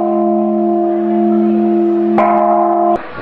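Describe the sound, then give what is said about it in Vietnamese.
A Buddhist temple prajna bell rings during a ceremony. Its sustained, humming metallic tone is struck twice more near the end, and each strike brightens the resonance. “Ngay bây giờ đề nghị ban nghi lễ cử 3 hồ chuông bát nhã.”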